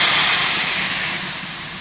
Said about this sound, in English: it's run by a compressor that you turn on with a switch that's here right on the bike path shelter, and you turn it on and it makes a lot of noise